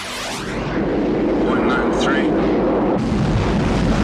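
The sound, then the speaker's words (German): Loud, steady, rumbling roar of a Bell X-1, the first supersonic aircraft. The deep blast holds for about four seconds, and its texture brightens near the end. “Das, was ihr da gerade gehört habt, war eine Bell X-1, das erste Überschallflugzeug der Welt.”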